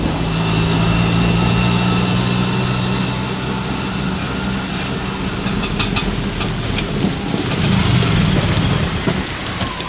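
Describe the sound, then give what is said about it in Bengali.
An auto-rickshaw engine runs loudly and steadily with a low rumbling drone under a broad, rain-like hiss that continues without a break. “কিছুক্ষণ চলার পর খকর খকর করে বন্ধ হয়ে গেল engine”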